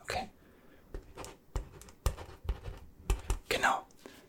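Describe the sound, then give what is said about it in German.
Something being written down, heard as a string of soft tapping and scratchy pen strokes in an uneven rhythm, with quiet whispering throughout. “Warte mal, hier schreibe ich hier an.”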